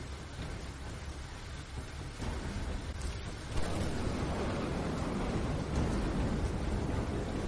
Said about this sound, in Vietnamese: Một tiếng sấm kinh thiên động địa.